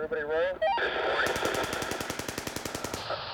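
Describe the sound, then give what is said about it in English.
Rapid machine-gun fire from a U.S. helicopter gunship shooting at suspected insurgents: a steady, fast stream of sharp shots lasting about two seconds, after a brief voice at the start. “helicopter pilots begging their chief to let them fire on a group of suspected insurgents gathered below. When they were given the go-ahead, they laughed as they gunned the men down.”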